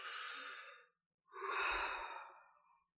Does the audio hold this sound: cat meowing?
no

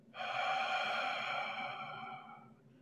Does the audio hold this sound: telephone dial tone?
no

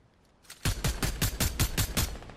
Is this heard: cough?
no

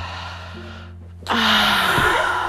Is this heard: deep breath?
yes

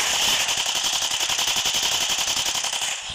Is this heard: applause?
no

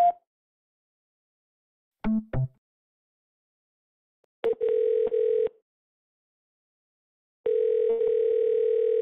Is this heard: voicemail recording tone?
yes

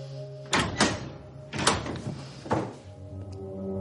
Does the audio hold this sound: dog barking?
no

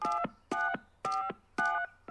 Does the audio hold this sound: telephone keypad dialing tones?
yes

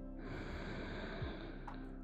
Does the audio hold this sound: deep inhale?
yes

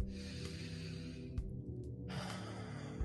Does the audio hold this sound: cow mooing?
no

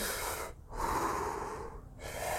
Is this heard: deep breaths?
yes

